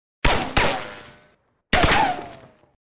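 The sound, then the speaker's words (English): Three gunshots fired into a strongbox padlock. Two loud, sharp reports land close together, then a pause before the third. Each blast cuts off into a ringing, decaying tail. “Big Nose George fired three shots into the strongbox padlock.”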